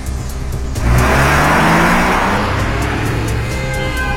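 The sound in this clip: A car engine revs hard as the vehicle swerves sharply to avoid a collision. After a quieter opening, the engine surges into a loud, sustained roar that holds to the end.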